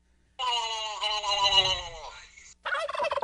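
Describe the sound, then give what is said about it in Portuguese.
Poultry calls from a whole henhouse, sent in by a listener. One long, bright, harmonic call holds steady for about two seconds, then a shorter call follows after a brief gap. “Opa, então tá o galinheiro todo. Isso é o marreco sorridente.”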